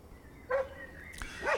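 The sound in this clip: Dog barking: a few short, harmonic barks in quick succession at moderate loudness, with quiet gaps between them.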